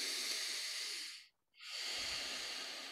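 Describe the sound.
A deep breath demonstrated as a breathing technique: two long, airy, hissing breaths split by a brief moment of silence, heard alone.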